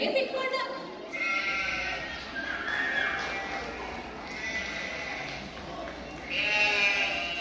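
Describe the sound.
Sheep bleating repeatedly as they are brought into a house, with loud, overlapping, nasal calls running through the whole stretch and rising again near the end.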